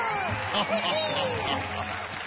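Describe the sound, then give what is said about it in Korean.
Applause on a Korean entertainment show: steady, dense clapping fills the whole moment, with voices calling out over it. “그야말로 백성바라기 임금 세종대왕이십니다. 박수!”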